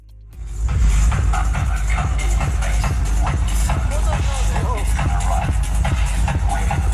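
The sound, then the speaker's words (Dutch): Loud rave party music blaring from loudspeakers set up around a small village in the southern Spanish mountains, heard as a steady pounding bass beat under a thick wash of noise. “Ja, 6 dagen lang maar liefst was er een raveparty aan de gang met loeiharde muziek uit luidsprekers die rondom het dorp waren opgesteld.”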